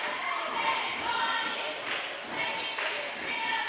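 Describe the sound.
A basketball is dribbled on a gym court during a girls' high school game, Holly Pond at Cold Springs. A few soft bounces are heard beneath a steady wash of crowd noise and voices.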